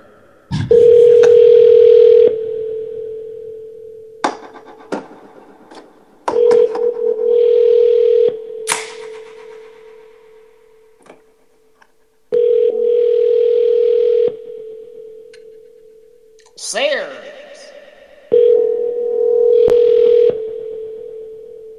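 Ringback tone of an outgoing phone call: four steady, mid-pitched tones of about two seconds each, evenly spaced by longer pauses, with brief clicks and electronic beeps scattered between them.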